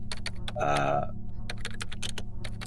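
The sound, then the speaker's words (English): A quick search being typed on a computer keyboard: a rapid, irregular run of crisp key clicks that keeps going for the whole stretch. “I look up in the the mainframe on a computer. I just do a quick search for”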